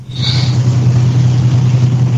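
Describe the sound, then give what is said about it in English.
A driving car is heard over a bad phone connection as a loud, steady low engine hum with crackly, compressed noise on top. “Okay, she's driving, and we got a bad connection.”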